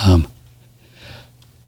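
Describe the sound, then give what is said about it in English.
One loud, abrupt sneeze bursts out at the start, then only faint breathing and low background noise follow. “Boy, that was a good one. Man, I like that. That was a sneeze.”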